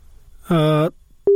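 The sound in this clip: A telephone line cutting off partway through a call, heard as a short buzzy electronic tone followed after a pause by a brief, pure steady beep.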